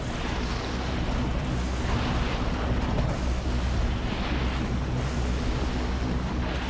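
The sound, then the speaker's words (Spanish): A boiling lava lake about 200 metres wide, deep in a volcano crater, gives off a continuous dense roaring rumble with slight surges throughout and no voices. “En las profundidades del cráter del volcán hay un lago de lava hirviendo de unos 200 metros de ancho.”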